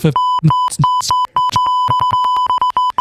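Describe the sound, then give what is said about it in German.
Electronic beeping: a steady, mid-pitched tone sounds almost continuously, broken by several short gaps, with other bursts of sound layered over it. “hör auf zu piepen”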